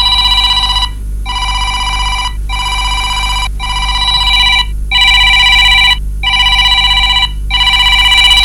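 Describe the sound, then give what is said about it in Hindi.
A telephone bell rings in bright, metallic bursts, about seven of them, separated by brief pauses in a steady, regular rhythm. The ringing is loud and continuous, with no voices. “घंटी थी वजे phone खणो”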